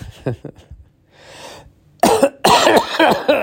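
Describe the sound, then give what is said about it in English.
Harsh coughing from a person with a lingering cough: a few loud, rough bursts following brief talk and a softer breathy rasp. “I can't shake this goddamn cough.”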